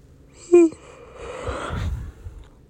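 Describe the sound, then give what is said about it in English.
A person yawning: a short voiced tone that rises and then falls, followed by a long, breathy exhalation. It is fairly faint, and no one talks. “there's something so embarrassing about when I yawn”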